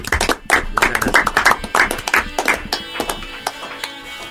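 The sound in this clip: Clapping from an audience after a live acoustic band session, many sharp, distinct hand claps in a fairly steady rhythm, loud and crisp, easing off slightly toward the end.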